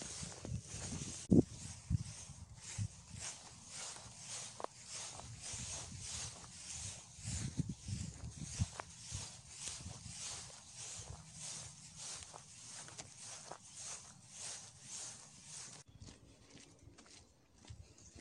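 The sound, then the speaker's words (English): Footsteps along a muddy farm track coming down from a field, many steady, evenly paced treads that keep a regular walking rhythm throughout, soft and fairly quiet over a low background of outdoor rustle. “We've come off the top field now, and we're walking down a farm track towards Coppice Pond.”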